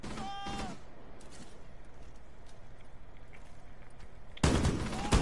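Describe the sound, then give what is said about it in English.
Gunfire in a video game: a loud burst of shots at the start, then a quieter stretch of fast, faint ticking, then another loud burst near the end. “What? That was a headshot.”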